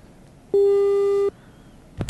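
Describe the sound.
Telephone busy tone after a call disconnects during a live radio phone-in: a single steady, mid-pitched beep lasting under a second, then near quiet with a brief burst of noise near the end.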